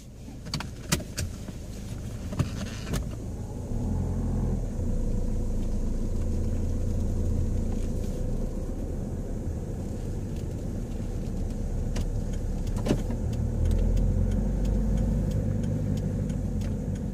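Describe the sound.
A car drives along a road with a steady low engine and tyre rumble throughout. A few light clicks and rattles sound in the first seconds, and another brief tick comes later.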